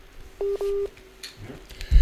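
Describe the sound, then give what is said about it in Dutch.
Two telephone keypad tones beep in quick succession as a dropped call is redialed, followed by faint rustling and a brief low thump at the end. “Oké, we proberen hem gewoon nog eens terug te bellen.”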